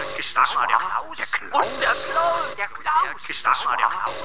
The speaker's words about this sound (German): Das Telefon hörte nicht auf zu klingeln.